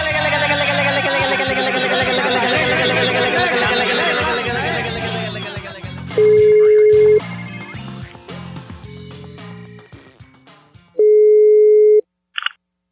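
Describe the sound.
Telephone line tones while placing a call: three long, steady mid-pitched beeps, the middle one fainter, then a brief higher blip, following a dense, busy stretch of other sound.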